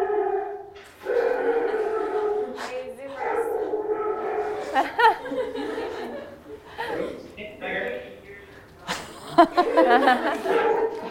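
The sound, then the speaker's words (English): A dog barks over and over in short bursts, mixed with yips and a few whimpering notes, while people laugh and chuckle underneath. “So that was the dog's reaction to "Mama, where's my paw?"”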